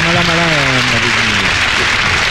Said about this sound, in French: Non, merci, mais arrêtez de m'applaudir, ce n'est pas suffisant.